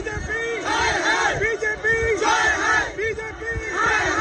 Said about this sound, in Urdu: عام آدمی پارٹی کے کارکرتاؤں نے بھاجپا ہائے ہائے کے نعرے لگائے۔